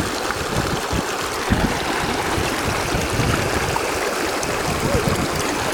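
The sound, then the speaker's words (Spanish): Spring water flowing in a stream at the Silala springs in Bolivia, a loud, steady rushing and gurgling wash of noise that continues without a break. “El curso del agua es impresionante, el manantial que se observa en estos instantes acá en el manantial Silala. Va recorriendo hacia el sur.”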